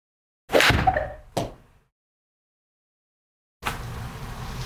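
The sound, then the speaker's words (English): A golf sand wedge on a full swing strikes the ball with one sharp crack, followed by a softer knock, a quiet gap, then steady background noise. “So let's go ahead and just hit a normal sand wedge here. Okay. How far do you think? Should I hit this? Let's just go full.”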